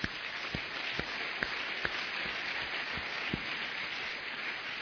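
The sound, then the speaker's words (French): Faint audience applause during a religious sermon, a soft, muffled wash of clapping with a few sharper individual claps standing out at irregular intervals. “Ça vaut la peine d'acclamer.”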